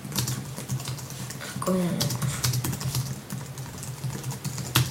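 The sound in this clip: Keys clacking on a computer keyboard while a Twitter post is typed: a steady stream of quick, light taps with irregular rhythm, a voice briefly heard partway through.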